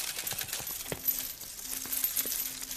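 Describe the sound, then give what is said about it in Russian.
Coins from a slot machine payout overflow the tray and spill onto the floor, a steady, bright metallic jingling of many clinks and rattles that goes on without pause. “Из отверстия выпадает большое количество монет. Ему выпал выигрыш. Монеты переполняют лоток и падают на пол.”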